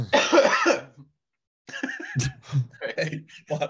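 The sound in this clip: A rough, raspy burst of coughing from something caught in the throat, followed by a voice talking.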